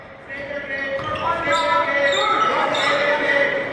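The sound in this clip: Basketball dribbling by a player out on top during a Lakeland college game, steady repeated bounces of the ball against the court floor under a constant wash of crowd noise.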